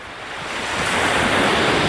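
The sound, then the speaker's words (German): Ocean waves break on the coast of Quiberon on the Brittany peninsula, a dense, continuous roar of surf with wind that builds steadily in loudness, with no voices. “Die Wellen von Quiberon in der Bretagne.”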